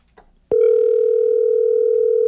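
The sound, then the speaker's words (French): Ringing tone heard while calling a contest winner by telephone: a faint brief click, then one loud, steady, unbroken tone that holds at an even level to the end. “on appelle la personne gagnante”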